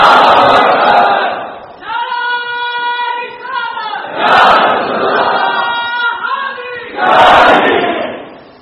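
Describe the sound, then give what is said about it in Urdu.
A crowd roars Allahu Akbar in response to the Nara-e-Takbeer call at a religious gathering. Three loud massed shouts come in turn, with sustained tonal passages between them. “اس لیے میں ہی آپ سے نعرہ لگوا دیتا ہوں، نعرہ تکبیر”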